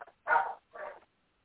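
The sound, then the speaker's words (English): Dog barking in two short, sharp bursts, the first louder and longer than the second, followed by silence. “These dogs are barking.”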